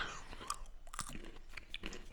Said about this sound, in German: Ja, dann lasse ich die jetzt mal knacken und dann probiere ich mal, wie der Riesling dazu passt.